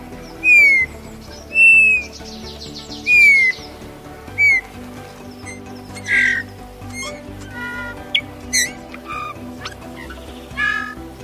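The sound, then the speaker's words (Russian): Eurasian bullfinch calls: many short, soft piping whistles repeated at irregular intervals over a steady low background hum. “Сейчас вы слышите голос снегиря обыкновенного.”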